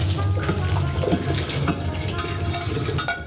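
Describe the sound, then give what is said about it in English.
Liquid drains from a pot of stewed beef, a steady rushing and splashing pour that runs the whole time with small swells and eases off just before the end. “take that off the heat. We're going to drain off all our liquid, but keep everything, the beef and all the flavor.”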